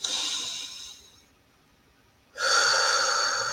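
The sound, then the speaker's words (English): A slow, deep human breath: a long airy rush of air that fades away, a near-silent pause of about a second, then a second, stronger breathy rush that sustains to the end. “And take another deep breath.”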